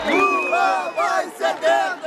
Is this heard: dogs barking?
no